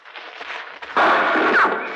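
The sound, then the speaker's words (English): A gunshot in underbrush: one loud, sudden report breaks in after a quieter, noisy stretch and rings on to the end. “He's shooting wild. He mustn't be able to see us.”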